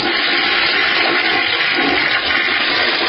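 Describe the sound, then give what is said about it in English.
A toilet flush sound effect, triggered from a button, gives a loud, steady rush of water for about three seconds without a break. No one speaks over it. “Press the dump button, it plays a toilet flush. I just figured it was appropriate.”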